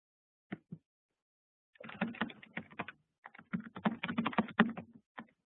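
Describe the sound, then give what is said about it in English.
Typing on a computer keyboard: two isolated key taps, then quick irregular runs of clicking keystrokes broken by short pauses, crisp and moderately loud with no talk. “Let me see if I can type that in here.”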